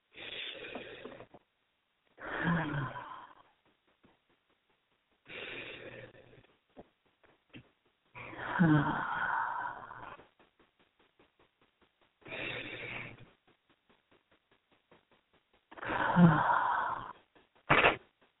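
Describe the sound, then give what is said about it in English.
Deep breathing, in through the belly and out through the mouth: several slow, airy breaths, each lasting a second or two, separated by quiet pauses, with a short final exhale. “let's just begin by taking three deep breaths. That means in through your belly and then out through your mouth.”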